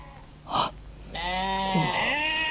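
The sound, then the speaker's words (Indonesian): Bleating from a group of goats: one short call, then a longer, loud, quavering bleat with a wavering pitch that carries to the end. “Hah? Sekelompok kambing? Apakah kambing-kambing ini habis digembalakan?”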